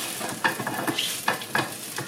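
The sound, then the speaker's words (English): Spoon scraping and stirring in a buttered pan as room-temperature rice is broken up, with a few short scraping strokes over a faint, steady sizzle. “And I'm just breaking the rice. So right now, it's not hot rice. It's kind of room temperature rice, I guess.”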